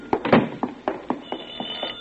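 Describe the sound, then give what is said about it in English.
A telephone rings with a rapid series of short, bright buzzing pulses, moderately quiet, repeating in quick succession. “Oh, the phone. I'll get it,”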